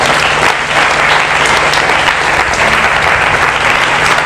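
Loud, sustained applause from a religious gathering acclaiming God during a sermon: dense, even clapping that fills the whole clip without a break.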